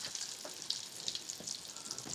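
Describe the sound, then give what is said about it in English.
Eggs frying in a pan for an omelet give a faint, steady sizzling hiss dotted with small crackles, with no voices over it. “All right, so the eggs are gonna go in now.”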